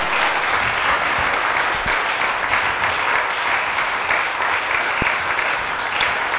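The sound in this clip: A church audience claps during a sermon, a continuous wash of clapping with a few sharper individual claps standing out.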